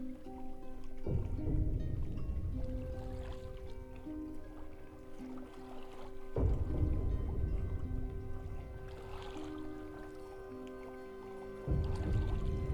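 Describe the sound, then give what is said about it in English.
A boat is rowed along a river at night: a steady low wash of water with a few heavier surges spaced several seconds apart, under sustained tonal sound. “The Queen, looking pensive, is being rowed along the river at night.”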